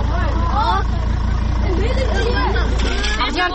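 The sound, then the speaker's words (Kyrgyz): Steady engine rumble from a crowded marshrutka minibus as schoolchildren board on the route to Ak-Jar settlement, with many children's voices chattering loudly over the constant motor drone. “биз да азыр ушундай маршруткага отуруп балдар менен кошо конушка жөнөйбүз батабызбы точно батабызбы”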